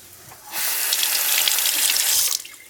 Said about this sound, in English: Give those a rinse.